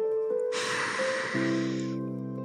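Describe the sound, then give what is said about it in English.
A slow, deep breath drawn in during a guided breathing exercise: a steady airy hiss lasting about one and a half seconds over a soft, sustained musical drone. “Again, breathe in slowly.”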